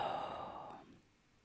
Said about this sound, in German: Ein und aus. Wir wollen das zusammen jetzt hier lesen und ein- und ausatmen üben.